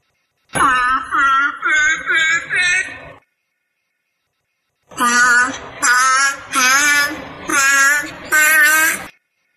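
A seal imitates synthesized guide tones singing do re mi. First comes a smooth run of five sustained electronic notes, then after a pause the seal answers with five rougher, wailing, moan-like notes that follow the same stepped pattern, loud and clear.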